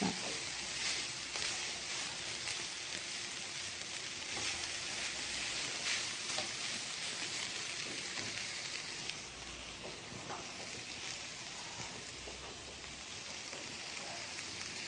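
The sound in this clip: Stuffed eggplant with chicken and pizza cheese sautés in a pan, giving a quiet, continuous sizzle with scattered soft pops that runs unbroken for about fifteen seconds, with no talk.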